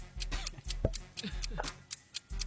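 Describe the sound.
Fast ticking from a game timer during a live trivia quiz, with many sharp, evenly spaced clicks running throughout as people talk over it.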